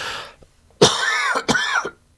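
Rough throat clearing from someone easing a scratchy throat: a faint rasp, then a loud, drawn-out gravelly clearing that breaks briefly and resumes before fading to silence.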